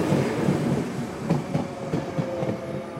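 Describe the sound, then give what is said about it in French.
A train rolls along the track at a station platform, producing a loud, steady rumble of wheels with a rhythmic clickety-clack over the rail joints and no voices. “le train vient juste de s'arrêter”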